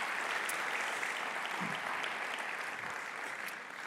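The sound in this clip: A church audience applauding to welcome a guest: continuous, even clapping from many people that eases off slightly toward the end.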